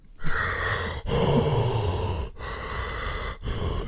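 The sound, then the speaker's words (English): A voice imitating heavy mechanical respirator breathing: long, slow, hissing breaths drawn in and pushed out in steady alternation, each separated by a brief pause, sustained and fairly loud throughout. “He just breathes the whole time.”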